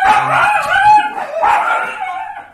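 A female dog vocalizes in two drawn-out, high, whining barks separated by a brief pause. The calls are loud, with no talk over them.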